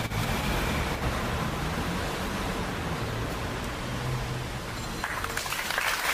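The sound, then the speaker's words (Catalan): Outdoor applause in front of Gandesa town hall after a minute of silence for a 9-year-old girl. The clapping is a steady, dense, hiss-like wash that holds at a fairly low level for the whole clip. “Aplaudiments després del minut de silenci davant l'Ajuntament de Gandesa per la nena de 9 anys que ha perdut la vida a la Fontcalda”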